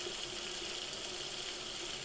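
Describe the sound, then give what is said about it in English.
Running tap water as a dish is held under the stream while washing dishes in a sink, a steady, even hiss that stays faint and unbroken throughout. “Bringing it under the water. You might notice how the temperature of the dish changes as you hold it underwater.”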